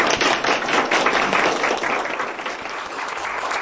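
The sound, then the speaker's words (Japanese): A loud round of audience applause, with dense, rapid clapping that tapers off gradually over a few seconds. “そしたらもう一度拍手、ありがとうございました”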